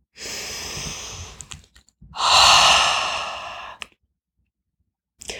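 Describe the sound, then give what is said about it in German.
Deep, slow human breaths drawn in and let out in long, airy swells, loud and breathy with short silent gaps between them and no talking. “Und dann nimm mal drei tiefe Atemzüge.”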